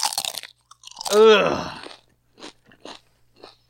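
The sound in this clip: Crunching and chewing of nachos: a burst of sharp, crunchy bites at the start, then a voiced groan, followed by several quieter crunches spaced apart against silence.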